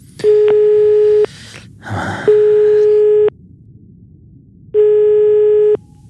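Ringback tone of an outgoing telephone call: three steady low beeps, each about a second long, separated by pauses, with a brief rustling noise between the first and second tone.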